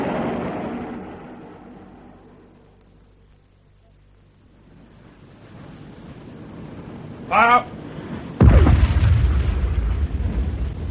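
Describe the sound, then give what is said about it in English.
A submarine's deck gun fires a single loud, booming shot that ends a quieter stretch and trails off into a long rumbling decay. “We'd better finish her off with the gun.”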